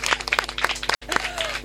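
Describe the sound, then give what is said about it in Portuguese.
A group of young children claps when asked to applaud during a morning show: quick, uneven claps with voices over them, broken by a brief silence near the middle. “As palmas, então.”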